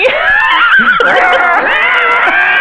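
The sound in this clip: A human voice imitates a demon screeching: a loud, shrill, continuous scream with wavering, warbling pitch and brief whinny-like squeals, sustained without pause throughout.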